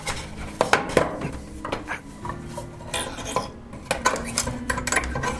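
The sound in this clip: A box lid being pried loose slowly, heard as scraping, creaking rasps and sharp wooden and metallic clicks at an uneven pace, with no talk.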